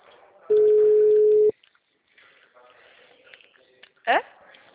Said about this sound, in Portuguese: Eu tô fazendo ligação, mas não tá dando certo.